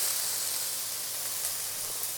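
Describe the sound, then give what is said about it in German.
Onions sizzling as they are roasted in a pan for burgers, a steady even hiss that carries on without a break and with no talking. “und rösten da dann gleich unsere Zwiebeln ein bisschen an.”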